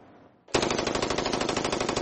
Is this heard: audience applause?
no